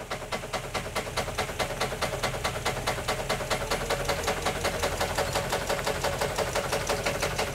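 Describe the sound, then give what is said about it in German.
A tree-shaker engine revs while shaking walnut trees in a walnut plantation, producing a loud, steady, rhythmic throb of fast regular pulses throughout. “Achtung, wir schütteln. Geben wir ein bisschen Gas.”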